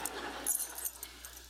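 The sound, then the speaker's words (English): A ring of four keys jangles softly in a church, giving a few light metallic clinks and rattles in quick succession. The sound is faint and plays alone. “I have these keys. These right here are for something else. I have these four keys.”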